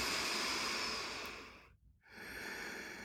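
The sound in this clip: Deep inhaled breaths during a guided relaxation: soft, airy hissing breath sounds, quiet and alone, split by a short silent pause near the middle before the next breath.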